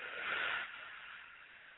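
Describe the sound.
A slow, soft exhale during a breathing exercise, a quiet airy hiss that swells briefly and then gradually fades out.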